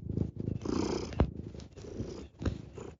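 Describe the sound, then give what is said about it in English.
A male cat purrs while kneading: a low, rumbling purr that pulses in a steady rhythm, broken by a few short louder rustles, fairly quiet overall. “I don't know if you can hear him purring.”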